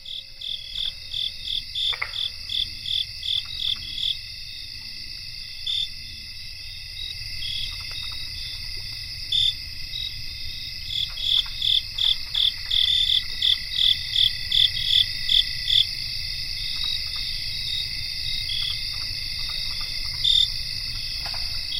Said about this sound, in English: There are several different insects. There's what we think is southeastern field cricket in that chorus, and then another ground cricket.